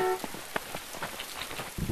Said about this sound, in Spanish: Ay, qué lluvia.